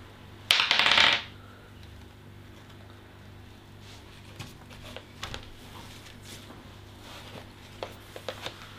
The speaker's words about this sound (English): The dice has been rolled.